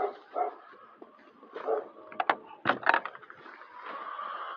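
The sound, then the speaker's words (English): A guard dog kept near chickens barks in several uneven bursts, mixing sharp barks with softer whimpering yips and short pauses between. “That's the dog. That's the guard dog. The chickens got a guard dog, even.”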